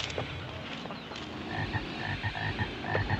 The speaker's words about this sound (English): Come on, frog, do it.